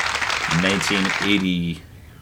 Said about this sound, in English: A little all right, on the applause there, crowd.